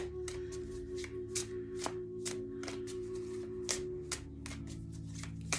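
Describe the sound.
A deck of animal oracle cards is shuffled for a reading. Crisp riffling bursts repeat steadily for several seconds over a low, constant hum, and no one speaks.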